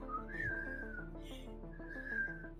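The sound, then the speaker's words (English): A person whistles a slow, wavering tune, mimicking a defendant whistling on the witness stand during a murder trial. A steady high melodic line sits over sustained low tones, moderately loud throughout, with no talk. “He sat on the stand and whistled.”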